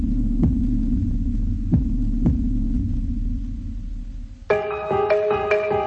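Heartbeat sound effect in a radio station jingle: a few soft, low thumps over a steady deep hum, then a bright synthesized chord with sharp pulsing hits near the end.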